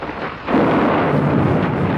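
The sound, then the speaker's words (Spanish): Thunder and rain on a stormy November night: after a brief quieter hiss, a loud, deep rumble breaks in and holds steady, with a broad rushing wash of rain throughout. “Sabemos, usted, yo, todos, que tenía que llover. Está escrito.”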